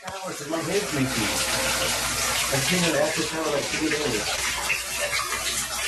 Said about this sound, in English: Why'd you turn on the water?